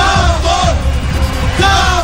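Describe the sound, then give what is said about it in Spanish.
A stadium crowd roars and shouts at a carnival event in a loud, continuous wall of voices, with bellowing and chant-like swells rising over the din. “El estadio tiembla por el grito de los espectadores.”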